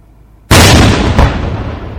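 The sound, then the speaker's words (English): A single loud blast from an illegal 'Thunder and Diamond' firework mortar, set off by federal agents at a media event with a plywood dummy attached: a sharp, powerful bang followed by a brief, rumbling decay. “Tulalip police confiscated a mortar called Thunder and Diamond at Boom City. In Renton, agents with the Bureau of Alcohol, Tobacco, and Firearms and Explosives set it off at a media event to show how lethal these things can be.”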